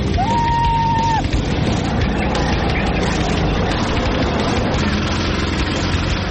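Go-kart engines drone on a small track ringed with tires, where four little karts can reach 60 km/h; the buzzing motor sound is loud and continuous, with a short high whine near the start.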